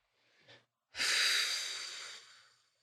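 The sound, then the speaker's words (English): A deep breath drawn into the low belly: a brief faint inhale, then a long, loud, airy exhale that slowly fades away. “And we'll just take a couple deep breaths into the low belly.”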